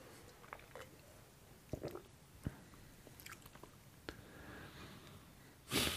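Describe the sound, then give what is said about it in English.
Soft mouth sounds of someone sipping and tasting a spelt drink: scattered faint clicks and smacks, then a short breathy slurp near the end, with no talk. “I'm using a negative to figure out what the spelt tastes like. And it's this, let me take another sip.”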